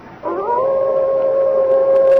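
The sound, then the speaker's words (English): A white she-wolf howls: a single long, fairly high note that slides up briefly at the start, then holds steady and loud to the end without a break. “There, Father. Through the tree. The white wolf.”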